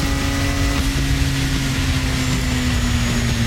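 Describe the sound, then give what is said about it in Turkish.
Engine noise comes from a car built entirely of wood, driven at about 79 km/h on the mountain road to Ayder plateau and recorded on a mobile phone. A loud, steady, continuous drone with a constant hum runs throughout. “Tamamen ahşaptan üretilen arabayla Ayder Yaylası yoluna çıktı.”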